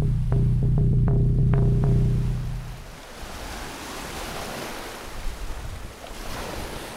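Waves washing along a bay shoreline give a steady rushing surf with wind buffeting the microphone. A low droning hum plays over the water for the first couple of seconds, then fades, leaving the surf alone.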